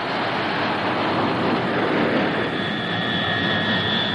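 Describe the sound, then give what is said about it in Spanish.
An airplane takes off with a loud, steady engine roar that stays even throughout, and a faint high whine emerges near the end. “Sube al avión. Todos se cuadran ante Bon Inicia el despegue.”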